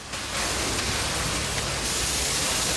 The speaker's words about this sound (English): At the factory, workers in white uniforms are blasting the machinery with high-pressure water jets.